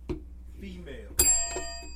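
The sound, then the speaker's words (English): A bell rings once during a trivia game, a bright struck tone with layered overtones that sustains and slowly fades, with people talking before and around it. “Who's ringing the bell? I think I am.”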